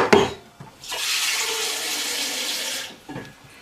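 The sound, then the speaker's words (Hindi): Water pours into a pressure cooker pot during home cooking. It is a steady, rushing stream lasting about two seconds, with brief light knocks before and after it. No voices are heard. “अब पानी वगैरह डालकर इसमें मैं थोड़ा सा और पानी ऐड करूँगी,”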